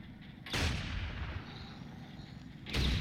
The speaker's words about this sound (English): Shoot it a few times and it will turn off.